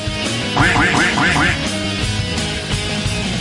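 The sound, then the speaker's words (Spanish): Nasal duck quacks in a quick run of five, over steady background music. “No, quiero seguir oyendo. Del pato, por favor.”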